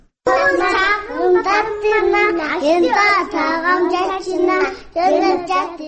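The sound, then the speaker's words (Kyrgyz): Young kindergarten children singing together in unison: a steady, loud chorus of high voices carrying a continuous melody with brief breaths between phrases. “Шаардагы номер 13 кыял балдар бакчасындагы наристелер мынтип бейкапа ырдаганды үйрөнүп атышат.”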